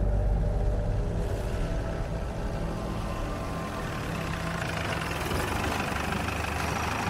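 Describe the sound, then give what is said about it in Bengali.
A car engine runs steadily on a road past Jadavpur near Kolkata, giving a continuous low rumble and mid-range drone that keeps an even level throughout, with no voices. “Jadavpur পেরিয়ে একটা নির্জন জায়গার কাছাকাছি এসে গাড়িটা একবার থেমে গেল।”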